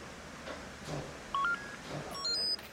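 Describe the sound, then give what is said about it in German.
Faint telephone dialing tones sound over low hiss: a pair of short beeps, then a quicker cluster of higher tones near the end, with no speech. “Ich werde Frau Müller anrufen.”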